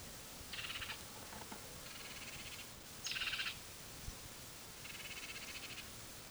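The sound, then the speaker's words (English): A bird gives harsh, buzzy protest calls in four short chattering bouts at a high pitch. The calls are faint over a steady background hiss. “There's also another bird giving protest notes. So there are 2 birds here.”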